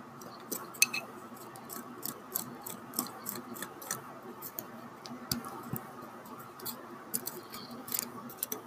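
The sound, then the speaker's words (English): Someone bites and chews frozen cantaloupe, making many crisp, irregular crunches and clicks. They are fairly faint over a steady low background. “Some cantaloupe. I can't remember what this fruit is called, but it's so delicious. You can kind of hear how frozen it is.”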